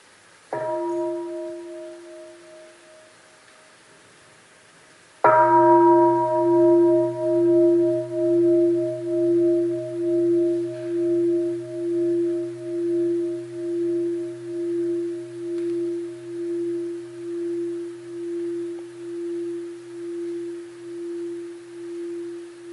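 A temple bell is struck twice: the first strike fades within a few seconds, then a second strike rings into a long, steady humming tone that slowly pulses and wavers as it gradually decays.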